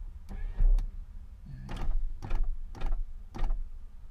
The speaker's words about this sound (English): let me roll out the windows a little bit more.